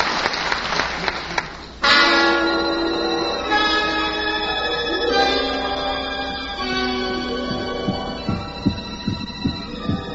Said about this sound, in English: Hear that sound? That's the beating of a human heart. Yes, a human heart, the pulsating mechanism that pumps steadily throughout the lifetime of each one of us.